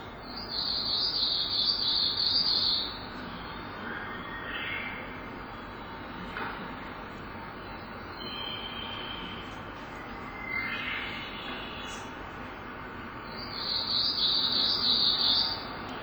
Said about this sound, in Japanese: これは、メボソムシクリです。ちょとりちょとりちょとりっていうような感じで鳴いています。